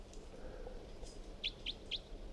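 A bird calls with three short, high chirps in quick, even succession, faint over a steady low background hiss.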